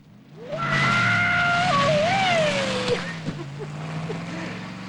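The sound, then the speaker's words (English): A car's engine roars and its tires squeal as it lands a stunt jump after a full mid-air roll, the wavering screech loud at first, then easing into a lower engine rumble. “The car rises in the air, completes a full circle and lands on the far side.”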